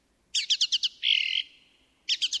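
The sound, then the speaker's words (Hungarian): Bird chirping in a forest: a quick run of five bright, high chirps, then a longer buzzy trill, a short gap, and three more rapid chirps, clear and alone. “Egy erdőn mentünk keresztül, amikor egy gyönyörű madár termett előttünk.”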